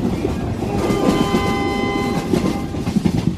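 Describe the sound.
A passenger train running steadily, giving a continuous broad rumbling roar with a sustained horn-like tone through the middle, lasting a few seconds with no voices.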